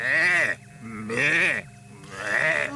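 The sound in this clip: Sheep bleating from a sheep-transforming machine: three loud, drawn-out, wavering bleats, separated by brief pauses.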